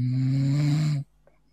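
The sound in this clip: A single long, low, rasping snore comes from a person asleep during a live chat stream. It lasts about a second, then drops to near silence.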